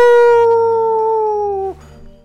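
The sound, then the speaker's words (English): A human voice imitates a wolf howling at the moon: one loud, long, sustained tonal howl that holds a steady pitch, dips slightly, then cuts off abruptly near the end. “WC comes out and starts howling at the moon”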